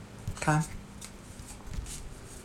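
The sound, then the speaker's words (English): A deck of playing cards is shuffled and then cut, giving a quiet, steady papery rustle with one brief louder flurry early on, set against low background noise and a hint of voice. “Okay, so I've shuffled. I'm going to sort of bring these on the camera now and just cut the deck.”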